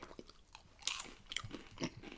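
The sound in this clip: Fried cheese is chewed with faint, crisp crunches. A few louder crunchy bites stand out among softer, quieter chewing sounds, with no talk.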